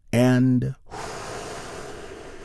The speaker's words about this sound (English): take another big, deep, healing breath with me right now. All together, here we go.